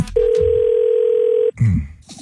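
A telephone dial tone sounds while a call is placed: one loud, steady, unbroken tone lasting a little over a second, then it cuts off and brief muffled noises follow.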